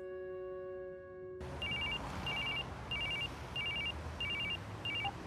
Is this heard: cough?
no